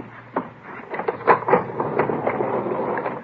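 An elevator running, giving off a steady mechanical hum and rumble with a few irregular clunks and rattles at a moderate level, with no talking.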